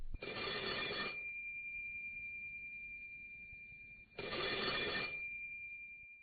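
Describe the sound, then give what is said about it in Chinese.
A telephone rings insistently, sounding two buzzing bell bursts a few seconds apart over a continuous thin high tone and low background noise, with no voices. “但是这电话呀一直响”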